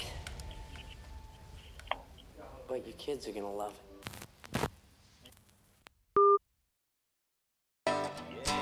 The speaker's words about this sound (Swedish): nu ringer min privata telefon också